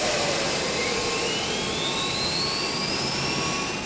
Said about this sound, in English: At the same time, the two other engines came to life,